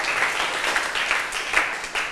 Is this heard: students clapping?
yes

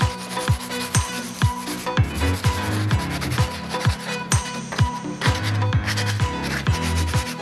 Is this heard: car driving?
no

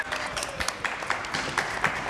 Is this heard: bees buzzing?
no

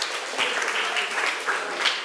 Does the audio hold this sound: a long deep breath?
no

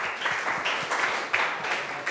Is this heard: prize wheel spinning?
no

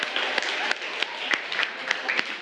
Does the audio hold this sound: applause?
yes

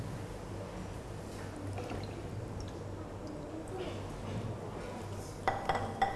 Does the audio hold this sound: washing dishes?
yes

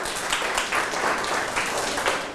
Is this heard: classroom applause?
yes

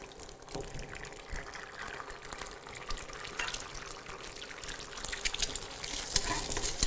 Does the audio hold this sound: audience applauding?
no

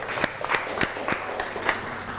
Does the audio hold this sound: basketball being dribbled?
no

